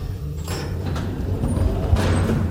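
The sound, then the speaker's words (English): An elevator ride, doors included, in a building with cold storage: a steady low mechanical rumble runs throughout, with a few soft clunks and brief sliding noises rising above it. “This elevator will take us near the cold storage.”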